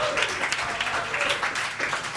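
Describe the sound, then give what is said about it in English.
An audience at a brewery pub event applauds with dense, continuous clapping that stays loud and even for just over two seconds. “Can I have a big round of applause for Carlo?”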